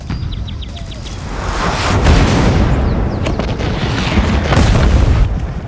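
Bombardment explosions from a sound effect: many deep booms rolling into each other, building into a loud continuous roar with a few sharper bursts.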